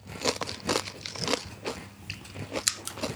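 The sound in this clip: Crunching and chewing of potato chips: many crisp bites and rough grinding chews in an irregular run, fairly faint and with no talk.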